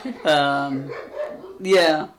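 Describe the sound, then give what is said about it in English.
Impatient dogs barking: two short, high, yelping barks with a quieter stretch between them. “Your dogs are getting impatient.”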